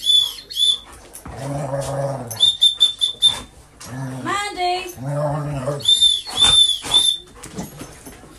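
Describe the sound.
Dogs play noisily and run into things indoors, making irregular bursts of scuffling, bumping and canine vocal noises at varying loudness, while a person briefly calls out a name.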